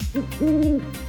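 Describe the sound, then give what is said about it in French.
An owl (chouette) hoots alone: a brief soft note, then a longer, steady, low-pitched hoot. “Alain s'est trompé. C'est un son de chouette.”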